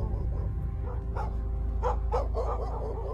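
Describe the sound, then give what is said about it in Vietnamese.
Dogs barking in a village at night: a few sharp barks in quick succession, fairly faint over a steady low hum. “bầy chó ở trong xóm cũng chõ hết về bên nhà thằng Tâm mà cắn lên râm ran”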